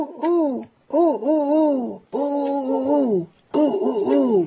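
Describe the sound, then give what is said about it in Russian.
A human voice imitates a wood pigeon's song with four throaty, hooting phrases of wavering pitch, separated by brief pauses. “Это голубь. Какой-то голубь. Он поет так.”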